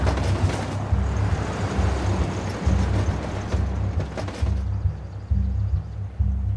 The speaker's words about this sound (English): Everyone piles into Jess's pickup truck. They pull a trailer loaded with supplies.